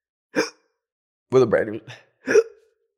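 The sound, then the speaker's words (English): Hiccups from someone who has just eaten a Chipotle quesadilla: a few sharp, voiced hiccup bursts separated by silence, one drawn out into a brief throaty sound. “I don't know what they put in that Chipotle quesadilla, but it's making me hiccup like no tomorrow.”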